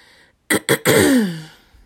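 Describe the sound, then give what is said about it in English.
A person clears their throat: two short, sharp rasps, then a longer voiced rasp that drops in pitch as it trails off, alone with no talk around it. “And don't be saying she just cleared her throat. She must have coronavirus.”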